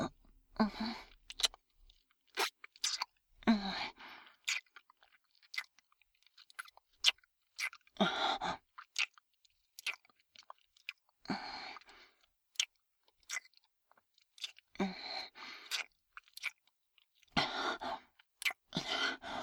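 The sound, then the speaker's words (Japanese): Soft wet kissing sounds, with many lip smacks and moist clicks coming in irregular bursts separated by short pauses. They are faint and intimate, with no talk, across nearly twenty seconds. “いくらキスしても足りない。もっと、もっとちょうだい。”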